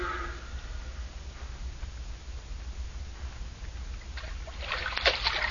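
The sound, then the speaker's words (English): Water splashes and sloshes as someone swims across an impounded lake in a radio drama effect, with a steady watery wash that grows into louder splashes toward the end. “They didn't figure on anyone swimming across the impounded lake and climbing on the dam from the rear.”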